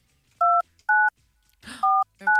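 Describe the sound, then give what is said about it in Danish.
Telephone keypad dialing tones: four short, clear dual-pitched beeps in an uneven rhythm, with a brief rustling noise just before the third. “Nej, vi ringer ikke til Joey Moans. Vi ringer til en, der er vigtigere. Okay. Som forhåbentlig svarer telefonen.”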